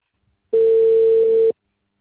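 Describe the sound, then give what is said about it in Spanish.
A telephone tone after a dropped call: one loud, steady, mid-pitched tone lasting about a second, starting and stopping abruptly, with silence before and after. “Aló, se cortó la llamada. se cortó la llamada.”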